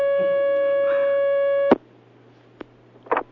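A telephone call coming through on the line: a steady, loud electronic line tone holds for under two seconds, then cuts off with a sharp click, followed by a couple of faint clicks and a brief burst of line noise.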